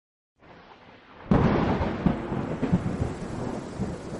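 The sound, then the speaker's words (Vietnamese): Heavy rain hisses steadily during a nighttime thunderstorm, then a loud thunderclap bursts in and keeps rolling as a deep rumble under the downpour, with a few further heavy booms. No voices. “Nửa đêm hôm ấy, trời đổ một trận mưa to. Tiếng sét đánh ầm ầm khiến cho cái Phong”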